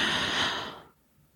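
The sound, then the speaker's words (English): A deep breath drawn in during a guided breathing exercise: an airy, breathy hiss lasting just under a second before cutting off into near silence. “So you're going to take a 5-second inhale.”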